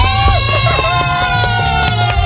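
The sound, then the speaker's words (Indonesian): A crowd claps and cheers for contest winners as the results are read out. Busy clapping mixes with shouts and a talking voice, staying loud the whole time. “Tepuk tangannya.”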